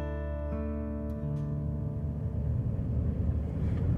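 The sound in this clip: A car drives down into a valley toward a reservoir. Its steady low engine drone carries layered harmonic tones under a broad road rumble that grows slightly rougher toward the end.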